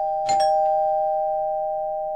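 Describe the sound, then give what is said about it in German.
Doorbell at a home's front door ringing once: a bright, loud chime struck quickly, then sustaining as a clear tone that fades slowly, with no voices. “Plötzlich klingelt es an der Tür.”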